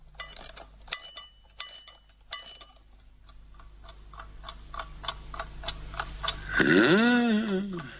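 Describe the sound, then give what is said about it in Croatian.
Ticking of a wound-up watch: steady, regular, crisp ticks repeat throughout, fairly faint, before a voice starts speaking near the end. “Radi, radi, kuca. A znao sam ja da je on živ, rđa jedna. Živ i zdrav.”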